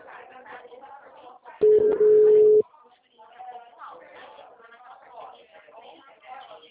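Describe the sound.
A dropped phone call tone: a single flat, steady, mid-pitched beep lasting about a second, loud against the talk on the line before and after it.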